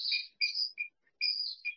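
Birds sing in the open, several short, high chirping phrases in quick bursts separated by brief silences, clear and fairly faint.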